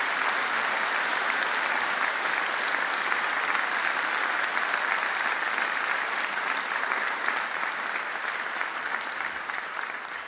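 Audience applause for a student receiving an award for outstanding senior mathematics: dense, steady clapping from many hands that keeps up for about ten seconds and eases slightly at the end.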